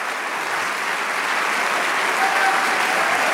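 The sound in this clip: A church audience applauding, with steady, dense clapping that stays loud and even throughout, with no pauses and only faint voices mixed in.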